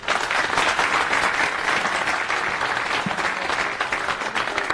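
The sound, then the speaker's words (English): An audience applauds to welcome a speaker to a talk on Horizon EDA CAD software. The clapping is dense, steady and loud for the whole stretch, with no voices over it. “So please give a warm welcome to Lucas.”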